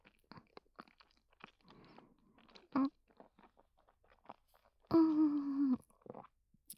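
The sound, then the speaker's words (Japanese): Someone eating rich ramen with springy noodles, making soft wet mouth sounds and small scattered clicks, with two louder bursts; the second is longer, lasting close to a second. “プリプリの濃厚ラーメン、一滴残らずいただきます。”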